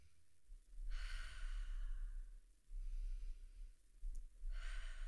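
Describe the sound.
Slow, deep breaths taken as a mindful calming practice, heard as soft, airy rushes of air. One long breath is followed by a pause and the start of another, all faint over a low rumble.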